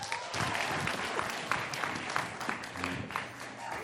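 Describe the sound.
Applause from an audience welcoming a speaker: dense, steady clapping that holds at a fairly even loudness from start to finish, with no talk over it.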